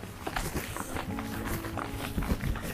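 Footsteps of someone walking back from an early stroll, a run of quick, uneven taps and scuffs that continues steadily throughout.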